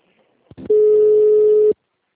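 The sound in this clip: Telephone tone during a call transfer: a single steady, loud mid-pitched tone of about one second, preceded by a couple of short clicks, with no talk over it.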